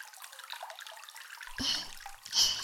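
Water is poured over a person's body during washing: a faint trickle gives way to two short, splashing pours of moderate loudness.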